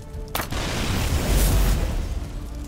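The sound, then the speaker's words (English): A fireball explosion bursts from a wooden barrel with a sudden onset, then a loud roaring blast with a deep low rumble that swells and slowly tails off. “Ball of fire burst next to Keelan and Marimus. Marimus shoved Keelan to the side to protect him from the wooden shrapnel. Was that a barrel?”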